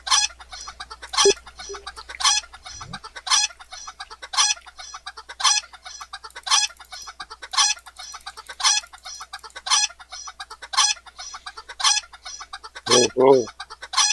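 A played recording of a chicken clucking: many short, sharp clucks in a steady repeating rhythm, with a brief higher warbling call near the end, heard on its own.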